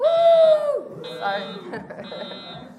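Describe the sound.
A fire alarm buzzer sounds in high, piercing bursts that switch on and off over a murmur of voices and talk.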